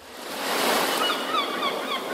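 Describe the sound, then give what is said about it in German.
Surf and a fresh sea breeze at the harbour of Dieppe on the Channel coast. A steady, loud wash of breaking waves swells to a peak and then stays broad and rushing, with no voices. “Atmet frische Meeresbrise statt Schlossmief ein.”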